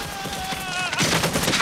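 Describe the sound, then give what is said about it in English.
Gunfire in an audio drama battle scene, soldiers shooting at snipers hidden in bushes across a lane; a rapid crackling burst of shots swells in the second half, layered over a sustained tonal background. “Shots pepper the ground and the soldiers get down. They fire at the snipers hiding in the bushes on the other side of the lane.”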